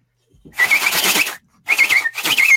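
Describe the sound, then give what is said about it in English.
A human voice imitates a whistle chirp with the lips, copying an unidentified nighttime call heard near a trailer: three breathy, high whistled chirps, the first longer, loud and alone. “that whistle chirp with like lips”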